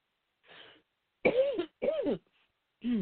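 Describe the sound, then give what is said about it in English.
Coughing after something went down the wrong pipe: a faint first cough, then three strong, harsh coughing bursts separated by short pauses, with no talk. “Sorry. I took a breath and, you know, went down the wrong pipe here.”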